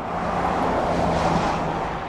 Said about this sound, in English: Cars and semi-trucks whiz by on the island's main thoroughfare